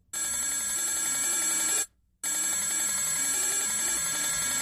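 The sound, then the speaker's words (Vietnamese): A telephone bell rings shrilly and insistently from a phone knocked askew on a heavy table. Two long, loud, continuous bursts of ringing are separated by a brief silent gap. “Rồi như một thách đố, chuông điện thoại bỗng reo lên inh ỏi.”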